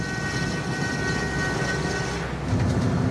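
A train moving off on rails sprinkled with sand for traction, hauling a load, gives a steady, loud, continuous rumble with a droning engine tone that holds throughout.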